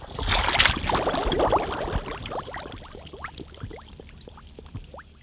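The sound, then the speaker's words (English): Gas bubbles rising from the bottom of a pond make a dense stream of small, quick gurgling pops. They are loudest at first and then thin out into scattered, softer blips. “That was the sound of gas bubbles rising from the bottom of a pond.”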